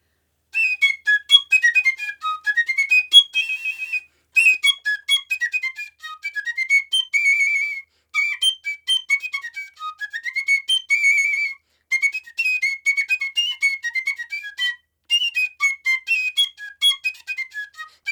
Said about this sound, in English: can we hear a little sample of your piccolo playing?